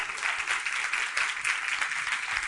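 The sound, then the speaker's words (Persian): Audience applause: a dense, continuous wash of many hands clapping, steady and moderately loud from start to finish with no talk over it. “ایشون به افتخارش یه دست بزنید”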